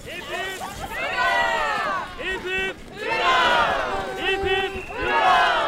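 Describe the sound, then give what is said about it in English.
Crowd of a couple of thousand cheering Norwegians at a May 17th parade in Longyearbyen, Svalbard, with many voices shouting and whooping in loud, continuous waves. “I'm walking in a long parade with a couple of thousand extremely happy Norwegians.”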